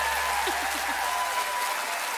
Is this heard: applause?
yes